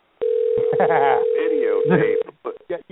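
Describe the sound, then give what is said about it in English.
An outgoing telephone call rings with a single steady, two-second tone of the ringback signal. People talk over the tone, and their talking continues after it stops. “So anyways, while he's calling Doc”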